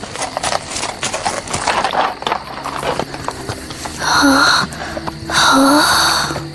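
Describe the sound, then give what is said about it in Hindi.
Hoofbeats of white horses galloping away, a fast, steady run of clip-clop beats that continues throughout, with louder sustained sounds rising over them later. “अंबर भी घोड़ों की टापों की आवाज का पीछा करता हुआ”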